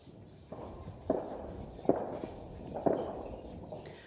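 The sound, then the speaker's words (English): Heavy artillery firing around a position near army headquarters during fighting in Khartoum: a few dull, faint thuds at irregular intervals over a low background rumble. “I don't know if you can hear the sound of the heavy artillery that's being fired around us. And that's coming from the vicinity of the general command of the army headquarters.”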